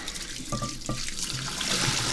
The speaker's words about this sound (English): I'm pouring the preheat water out of my teapot.